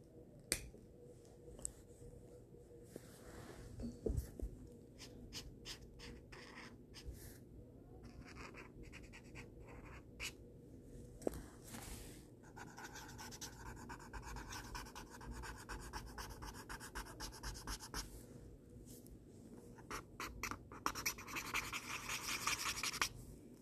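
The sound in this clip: Pencil drawing on paper makes many quiet, short scratching and scraping strokes in an irregular rhythm, broken by a few firmer taps, with no voices.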